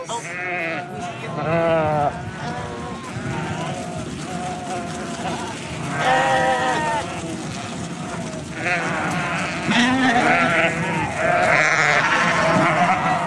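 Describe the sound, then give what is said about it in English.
A herd of sheep is driven down a road by a shepherd, with many overlapping bleats rising and falling continuously, some loud and some fainter. “It was a herd of sheep that were being herded down the road by a shepherd.”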